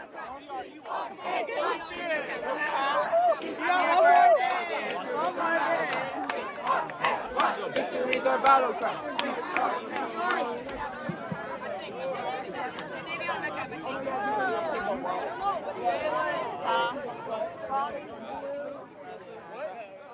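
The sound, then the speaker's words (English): A crowd of boys roars and shouts during a summer camp color war competition, a dense, continuous wall of overlapping voices with frequent sharp yells, staying loud and busy throughout. “You can hear the roaring behind me. This thing is very, very much on.”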